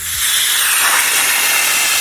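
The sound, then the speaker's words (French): Train braking as it pulls into a station, a loud sustained hiss like escaping air or steam, with a brief low tone sliding downward at the start and no voices. “Alors moi, ça serait un train qui freine, qui arrive en gare.”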